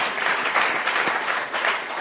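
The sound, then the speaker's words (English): A church audience gives a round of applause, with dense, steady clapping at an even level from start to finish. “Just a round of applause.”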